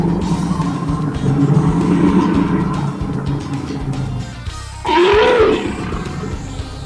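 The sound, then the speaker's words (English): A bear roars, with a low, rumbling growl that runs steadily for several seconds before a louder, higher-pitched roaring burst near the end. “Jim, what was that animal sound? I'm going to go with a bear. I would say that you are correct.”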